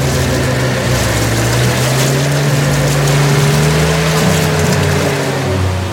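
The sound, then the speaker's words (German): A car engine revs at full throttle while the car is stuck in water. The loud, sustained, strained roar carries a steady droning tone that climbs slightly and then eases back, with no talk. “Gib nur mal Gas. Gib nur mal Gas. Vollgas. Gib nur mal Vollgas.”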